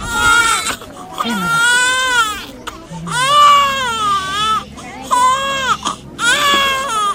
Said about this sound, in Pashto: په دغه ماشومانو کې یوه داسې ډله هم ده چې ژاړي